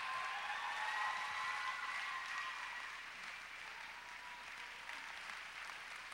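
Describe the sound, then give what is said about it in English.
Audience applause at a youth gathering: steady, dense clapping, fairly faint, easing slightly in loudness partway through and continuing to the end. “can we just give a round of applause to God for what he's done?”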